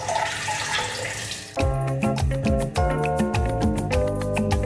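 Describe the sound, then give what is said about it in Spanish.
Water runs from a leaking faucet whose rubber washer has come loose. A steady hiss of flow lasts about a second and a half before a louder, tonal, rhythmic passage cuts in. “¿cuándo vas a arreglar el grifo? Ya lo arreglé. Pero se le volvió a salir la goma.”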